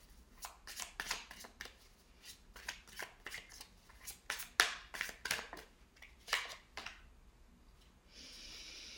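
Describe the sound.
Tarot cards are shuffled and drawn, giving many quick, crisp snaps and riffling flicks in an irregular rhythm, fairly faint and without talk.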